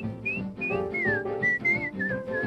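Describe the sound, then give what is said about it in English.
A person whistles a bright tune in a series of short held notes, one gliding downward, over a steady musical backing, clear and fairly loud throughout. “And whistle while you work.”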